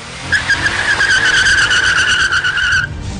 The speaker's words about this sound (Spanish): Una persecución de coches es doblemente difícil cuando eres un delfín.